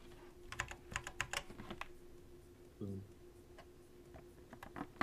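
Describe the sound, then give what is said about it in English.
Fingers type on a computer keyboard in a quick run of sharp, clacking keystrokes, then a pause followed by a few scattered taps. The typing is fairly faint over a low steady hum. “If you just type in Aido.eth into Etherscan, it should show up, I think.”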